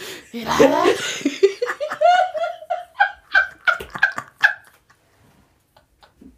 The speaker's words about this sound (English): Why do I turn into a pit bull? Why do I start doing that? I go on all fours and I go,